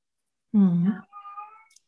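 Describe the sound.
A cat meows insistently after being fed because it wants to go outside. One loud, drawn-out meow is followed by a quieter second cry.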